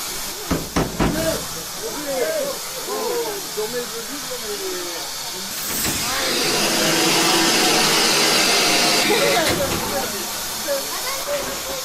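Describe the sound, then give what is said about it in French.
Water is injected into a steam locomotive's boiler with a broad rushing hiss. It swells and holds loud through the middle, then eases back. Clanks and a talking voice sit underneath. “J'injecte de l'eau dans la chaudière de la locomotive.”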